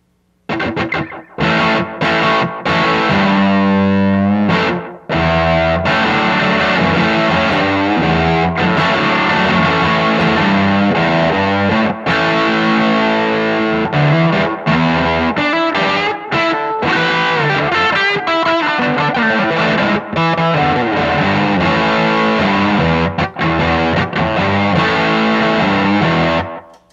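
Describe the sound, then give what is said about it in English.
Overdriven electric guitar through an Echo Park Echo Driver pedal into an Echo Park Vibramatic amp, playing a gritty rock part of chords and riffs almost nonstop for about half a minute, with one short break near the start. “an Echo Park Echo Driver running to the Echo Park Vibramatic”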